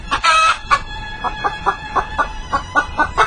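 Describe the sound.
A chicken clucks in a steady series of short, evenly spaced clucks, opening with a longer, louder squawk.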